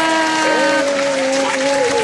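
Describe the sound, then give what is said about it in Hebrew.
Applause from a quiz show audience, a steady bed of clapping mixed with a sustained musical tone that shifts slightly in pitch partway through. “איזה כיף זה, כפיים.”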